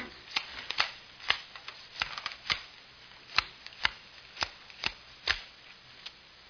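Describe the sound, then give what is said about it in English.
Playing cards shuffled and dealt for a poker game: many crisp, snapping slaps in a fairly steady rhythm, heard alone without talk. “Come on, sit down. I'll deal you some poker.”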